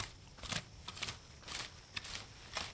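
Soft rustling of weeds being pulled by hand from open soil between rows of plants, coming in several short, faint bursts separated by quiet gaps.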